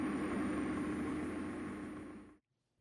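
A steady engine drone from a small experimental aircraft taxiing to the runway, a continuous broad rumble with a faint tonal hum, fading slightly before cutting off abruptly near the end.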